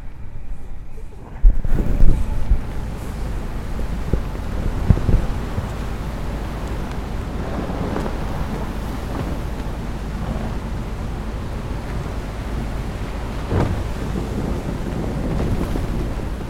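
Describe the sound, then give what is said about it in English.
A ship breaks through sea ice while stuck in an ice field, giving a steady low rumble and hiss with a few louder crunching thumps scattered through it. “Let's see if I can get the noise of the ship going through the ice, because it's a great noise.”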